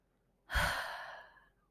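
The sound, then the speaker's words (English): One deep breath, drawn in through the nose and let out through the mouth, during a guided breathing exercise. The breathy, airy exhale begins suddenly, then tapers off over about a second with no voices. “deep breath in through the nose, exhale through the mouth.”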